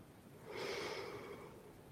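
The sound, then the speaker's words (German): A single audible inhalation through the nose, a soft, airy rush lasting about a second, faint against a quiet background. “Atme dreimal hörbar durch die Nase Regenbogenlicht ein,”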